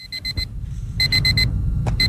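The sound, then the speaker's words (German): An electronic alarm clock rings in quick bursts of four shrill, high beeps. Two full bursts come with a short gap between them, and a third starts at the end, all over a constant low rumble. “Unsere Korrespondentin Jana Gent hat erfahren, viele Südafrikaner haben sich so sehr nach Lockerung gesehnt, die haben sich einen Wecker gestellt für heute.”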